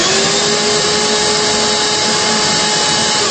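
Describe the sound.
Vacuum cleaner running with no hose attached: a loud, steady motor roar with a constant high whine, unbroken from start to end with no talk.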